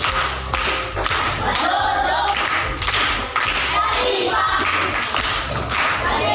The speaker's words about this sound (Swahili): Makofi kwa mjomba.